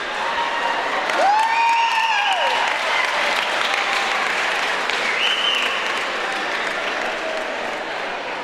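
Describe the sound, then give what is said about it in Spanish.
Audience applause at a live comedy show, dense steady clapping that stays loud throughout, with a whistle and cheering voices rising above it. “Aplauso rápido.”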